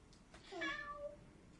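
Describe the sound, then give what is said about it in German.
A cat gives a single high-pitched meow, a short tonal cry that stands out clearly against an otherwise quiet, faint background. “Die macht auch so hoch, die Katze, ne?”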